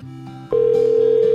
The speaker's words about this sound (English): I think he clicked off, just in case. Okay, he hung up.